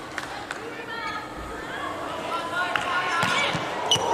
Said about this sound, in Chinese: 哇，这个球发球质量很高啊！